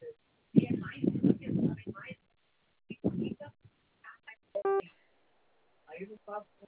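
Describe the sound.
A single short telephone keypad tone from pressing zero in an automated bank loan call, a brief bright beep sounding once between stretches of talk.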